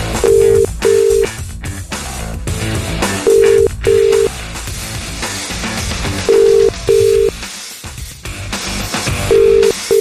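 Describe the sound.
Ringback tone of an outgoing phone call: steady mid-pitched double beeps repeat about every three seconds, four pairs in all with the last cut short, over a loud, busy background.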